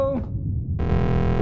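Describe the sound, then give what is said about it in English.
An arcade machine gives off a sudden electronic tone, a steady buzzing note that sounds alone for about half a second and then cuts off. “What was that? One of the arcade machines made a noise.”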